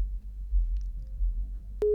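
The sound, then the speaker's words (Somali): A telephone busy tone after a caller's line has dropped: a steady electronic tone cuts in abruptly at the end, following low rumbling background noise. “isna sidoo kale qadka telefoonka ee ka go-ay”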